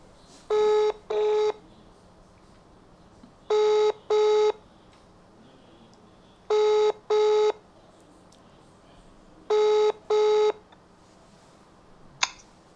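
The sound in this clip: A telephone ringing tone plays while a call is placed to a friend. Four evenly spaced double rings form a steady, clear electronic pattern with quiet gaps between them, ending on a faint click.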